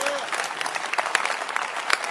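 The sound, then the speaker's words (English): An audience claps steadily, a dense crackle of many hands striking at once with a few sharper claps standing out, and voices mixed in beneath. “He's worth clapping. These are the things you must clap for.”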